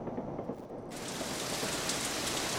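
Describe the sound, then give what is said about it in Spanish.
Heavy rain pours down in a dense, continuous hiss that swells louder and fuller after the first second, then stays steady. “pero cómo llueve y yo que no me traje el paraguas.”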